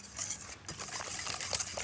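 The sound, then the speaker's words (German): Whisking of an egg and sugar mixture in a kettle to dissolve the sugar for a sponge batter: a faint, steady scratchy swishing with light clinking strokes that runs throughout. “Und dann gibt man das direkt in den Kessel und lässt es aufschlagen. Das sollte es geht nur um das Zuckerlösen.”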